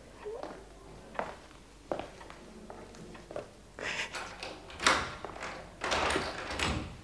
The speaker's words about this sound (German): Wir müssen abschließen wegen all der Möbel hier.